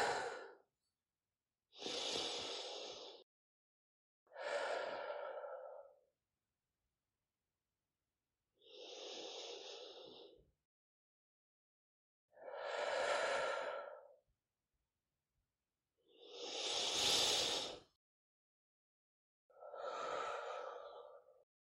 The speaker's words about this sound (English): And taking three deep breaths now.